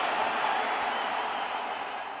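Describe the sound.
Padres fans in a San Diego stadium roar and applaud in a dense, steady wash of crowd noise celebrating Joe Musgrove's no-hitter, easing slightly toward the end.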